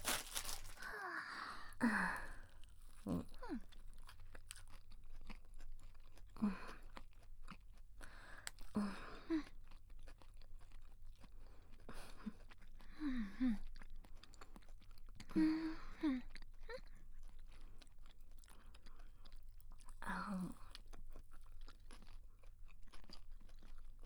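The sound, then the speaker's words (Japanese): Someone eats fried chicken, producing soft, quiet crunches and chewing. Many bites come at irregular intervals, and faint breathy sighs appear between them. “ごめん、チキン冷めないうちに食べようか。いただきます。”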